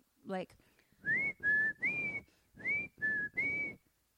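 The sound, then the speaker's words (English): A human voice imitates an eerie whistled nursery-rhyme tune, as heard at night in an empty house: six short, clear, high whistled notes in an uneven melodic pattern, each with a slight upward glide, heard alone. “So now it's nighttime, creepy, empty house. And we start hearing like a nursery rhyme whistle,”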